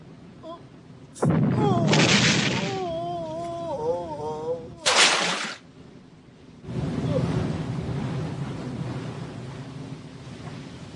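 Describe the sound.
Deep booming blasts of a ship's cannon firing on the captain's order: a few heavy, loud bursts, then a long sustained rushing rumble that fills the rest.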